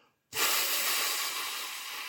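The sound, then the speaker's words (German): A long, audible breath out during a breathing exercise: a steady, breathy hiss that starts abruptly and holds for about two seconds, fading slightly toward the end, with no talking. “Daher ist es wichtig, so richtig hörbar beim Ausatmen diese Atmung mit”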